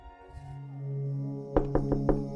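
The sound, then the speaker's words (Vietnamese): Four sharp knocks on a door in quick succession, evenly spaced, heard over a sustained musical tone that plays throughout. “Tiếng gõ cửa cộc cộc làm cho Tuấn”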